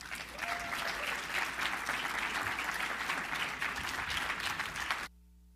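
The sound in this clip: An audience applauds at a live Canada Strong and Free Network event to welcome two young speakers, a steady, dense clapping lasting about five seconds before it cuts off abruptly to near silence.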